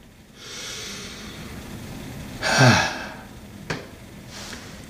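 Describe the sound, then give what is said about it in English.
A deep breath is taken: a long, soft, airy breath builds into a louder, forceful breathy burst, followed by a short sharp puff and a faint final breath, with no words. “if you're mad and you know it, take a deep breath.”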